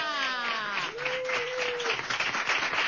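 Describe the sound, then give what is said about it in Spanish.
Audience applause, a dense, steady patter of many hands clapping that stays loud and even for about three seconds. “Un aplauso para Pepe Domínguez”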